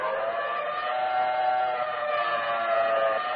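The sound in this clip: An air raid siren wails outside a window during a wartime alert, a loud, steady, continuous tone rich in layered harmonics that holds for the whole stretch, with no voices.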